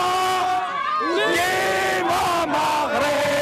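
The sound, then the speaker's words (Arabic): Moroccan fans in Rabat cheer and chant after the Morocco women's football team reaches the Women's Africa Cup of Nations semi-final. Loud crowd voices shout and chant without a break all the way through. “الجماهير المغربية في الرباط عبرت عن سعادتها الغامرة بوصول منتخب المغرب للنساء لكرة القدم إلى مباراة نصف النهائي”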